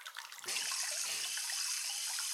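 Hot water running from a tap, starting abruptly after a short pause and then pouring as a steady, bright rushing hiss that stays even to the end, fairly quiet and with no voices.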